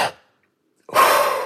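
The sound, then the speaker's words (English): A deep breath exhaled hard into a spirometer during a lung capacity test: a short breathy puff fades out, then after a pause a loud, sustained rushing blast of air runs to the end. “when they take a deep breath to exhale into that spirometer to do the lung capacity test, would kind of go like this.”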